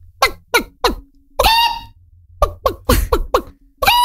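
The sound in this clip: A hen clucks in a loud run of short, clipped calls, with one longer, drawn-out squawk partway through and another burst of clucks after it.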